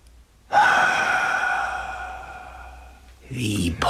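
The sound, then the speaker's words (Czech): A loud, drawn-out voiced exhale from a person told to breathe out during a mock examination for bloating, steady at first and slowly fading over about three seconds, followed by a brief burst of voice. “Hlasitě vydechněte.”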